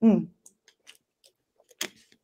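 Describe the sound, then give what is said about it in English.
A sip of water: after a brief voice at the start, a few faint mouth clicks follow, then a louder wet burst of sound and a couple more soft clicks. “Let me take a sip of my water.”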